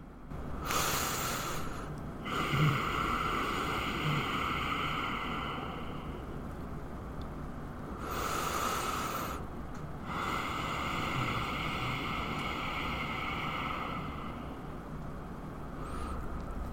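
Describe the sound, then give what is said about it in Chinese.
Two breath cycles demonstrating a breathing technique for clearing negative energy. Each short nasal inhale is followed by a long, rasping exhale pushed through a slightly tightened throat, airy and steady with no talk. “那吸气一样，就是正常鼻子吸，然后吐气的时候感受你的喉咙，就会像这样。我做两次吸气吐气给你们听哦。”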